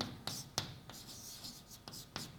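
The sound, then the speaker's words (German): Handwriting: a pen or pencil scratches out strokes and short scribbles, with faint rubbing marks coming at irregular intervals, soft and alone without any voices. “ich schreibe euch mal was hin.”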